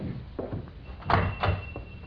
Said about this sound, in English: open the door like before